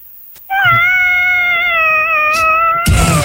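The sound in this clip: One long, drawn-out cat meow, loud and holding a fairly steady pitch with a slight waver for over two seconds, followed by a brief burst of noise at the end.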